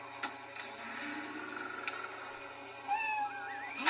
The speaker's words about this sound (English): it's the cat!